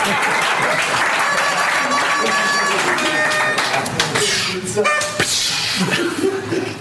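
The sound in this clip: An audience applauds and cheers for Scott Storch, a loud, continuous burst of clapping that holds steady and then eases off in the last seconds.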